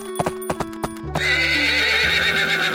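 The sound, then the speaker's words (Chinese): Horses pulling a luxurious six-horse carriage arrive outside an old mill: several quick hoof clip-clops are followed by a long, loud, wavering whinny. “这天一早，老旧磨坊的外面来了一辆有六匹马拉着的豪华马车耶。”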